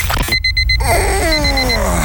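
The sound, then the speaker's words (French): An alarm clock rings in a rapid series of loud, high-pitched beeps, followed by fainter beeps over a dense musical backdrop with a tone that slides downward. “Tu croyais pouvoir repousser ton réveil encore 5 minutes?”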